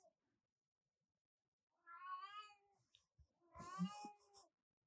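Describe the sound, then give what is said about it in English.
A pet cat meows twice, fairly faint: a drawn-out, wavering cry, then after a short pause a second, similar meow. “That is your cat. That's going to be fun to edit. I thought your mother was calling you. No, that's my cat.”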